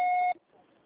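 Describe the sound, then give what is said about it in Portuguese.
A voicemail beep signals the start of message recording on a phone line. One steady, bright electronic tone lasts about a third of a second and then cuts off into faint line hiss. “Sua chamada está sendo encaminhada para a caixa postal e estará acessa após o sinal.”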